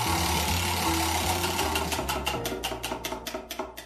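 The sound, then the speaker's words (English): A prize wheel spins with a fast stream of ratcheting clicks that gradually slow and spread apart as it winds down, over a low, steady background tone. “let's give the wheel a spin and see what it lands on.”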